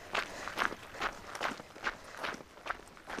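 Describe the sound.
Footsteps of a person jogging outdoors on a route around two Helsinki bays: a steady, evenly spaced run of about eight footfalls, each a soft crunchy thud, with no talking.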